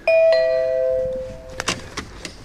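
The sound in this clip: A doorbell chime rings at an office in Amsterdam: two bright tonal strikes in quick succession that ring on and slowly fade, followed by a few sharp clicks and knocks near the end.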